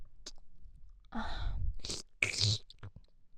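Close, soft mouth sounds of nibbling on an ear: a few quiet, wet, crunchy bursts with short gaps, including one longer, chewing-like stretch.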